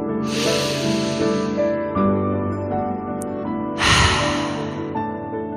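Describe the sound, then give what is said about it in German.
Deep breaths in and out during an evening meditation: two long airy rushes separated by a pause, over sustained soft music tones. “Einatmen. Ausatmen. Und ein letzter Atemzug.”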